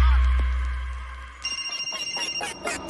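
A fading low hum gives way to a telephone ringing, its bell sounding in many quick, evenly spaced electronic pulses.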